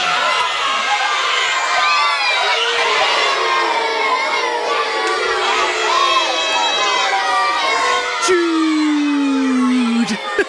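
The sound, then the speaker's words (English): Primary school children cheer and scream as a football goal goes in, a loud, sustained wall of high young voices shouting and whooping together without a break. “So this is the sound of the first goal going in. The sound of St Luke's Church of England Primary School in Worksop.”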